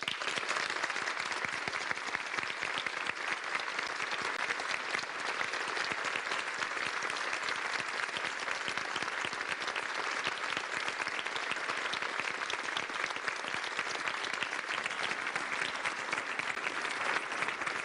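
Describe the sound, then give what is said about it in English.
An audience at a televised debate at Marietta College applauds as the candidates Richard Cordray and Mike DeWine are welcomed to the stage. The clapping is fairly faint but steady and sustained for the whole length, with no talk over it. “I ask the audience now to join me in welcoming both of these men to the stage, Richard Cordray and Mike DeWine.”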